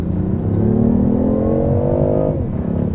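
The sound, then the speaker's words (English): Engine drone from a hybrid petrol-electric car with 275 kW combined output, accelerating hard to 100 km/h: a loud, steady roar whose pitch climbs smoothly for over two seconds, then eases off near the end. “We went to 100 k's there and just like that. Yeah, probably in 4 seconds.”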